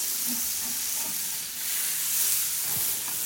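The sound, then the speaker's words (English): Melted butter sizzling on a hot griddle as it heats for pancakes, a steady broad hiss with faint, scattered crackles running through the whole stretch. “Now I've got the griddle heating up, and I'm going to coat the griddle with melted butter.”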